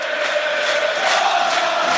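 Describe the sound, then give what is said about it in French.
Football stadium crowd at Stade Diochon roaring after a goal in a Rouen match, a dense, steady wall of cheering and shouting that stays loud throughout without a break. “Et Valentin Fus qui inscrit son 4e but de la saison. Et ça a totalement réveillé le public de Diochon.”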